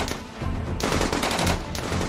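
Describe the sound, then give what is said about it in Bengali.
Musket gunshots as musketeers fire from three hidden spots among trees, the shots echoing off the surrounding hillsides: a few loud, broad blasts in quick succession, each with a long ringing tail, with no voices. “গাছের আড়ালে তিন জায়গা থেকে লুকিয়ে বন্দুক ছুঁড়ছেন মাস্কেটিয়াররা।”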